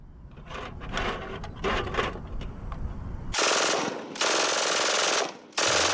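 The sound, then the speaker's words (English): MG42 machine-gun fire in rapid rattling bursts, starting with a run of quick shots and then two long, loud, continuous bursts separated by a brief gap, with no voices. “Can we hear an MG42”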